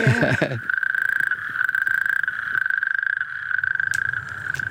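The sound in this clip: Adirondack toads calling in a loud, sustained, fast-pulsing trill on one steady pitch. The trill runs almost continuously, with a voice briefly audible at the very start.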